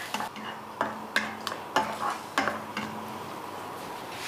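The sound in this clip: A fork beats eggs seasoned with light soy sauce in a bowl, making a series of quick, irregular clinking taps against the bowl, moderately loud, with a soft stirring swish between the strikes.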